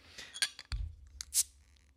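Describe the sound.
A one-pint, nine-fluid-ounce bottle of strong 11.2% ABV brew being cracked open: a few small clicks and clinks, then a brief, bright hiss near the end.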